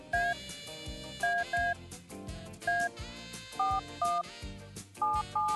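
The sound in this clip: Telephone keypad tones as a number is dialed: a series of short two-tone beeps in an uneven rhythm, playing over a steady music bed.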